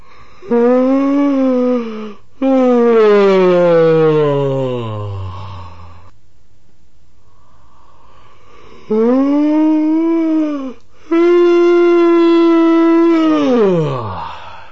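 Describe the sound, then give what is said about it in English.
A patient yawns aloud during breathing exercises: long voiced yawns stretched over several seconds, each drawn out in two parts, the tone sliding downward at the end of each, with quiet pauses between them. “Now some examples of where the patient yawns not only on the exhale, as he should, but as well on the inhale.”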